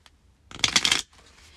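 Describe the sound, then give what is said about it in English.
Tarot cards being shuffled in one brisk, crisp riffle lasting about half a second, with quiet before and after. “So let's pull some cards for the week of February 12th to the 19th.”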